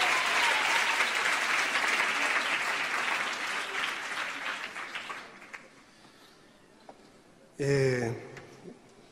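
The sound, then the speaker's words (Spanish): Audience applause at a live concert: loud, dense clapping that holds for about five seconds, then thins and fades into quiet, followed by a brief voice near the end. “Pido un aplauso muy fuerte.”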